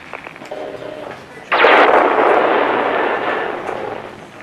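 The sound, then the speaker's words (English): A giant two-legged alien war machine with a sphere-shaped top fires its weapon: a sudden loud blast breaks in after a quieter stretch, then a roaring, noisy rush that slowly fades. “My God, it fired on them and killed them.”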